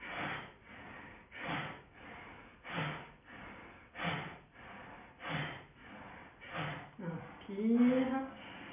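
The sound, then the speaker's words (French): Rapid, forceful bhastrika breaths in a breathing exercise held during a yoga posture, repeating in a steady rhythm of many sharp, noisy huffs. A brief voiced sound follows near the end. “on va faire un petit, de tenir la position en faisant un petit basrika. On inspire, on expire.”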